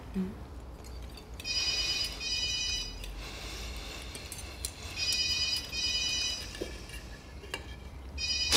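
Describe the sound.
A telephone rings at home during a meal, sounding as two long bursts of bright electronic trilling separated by a brief pause.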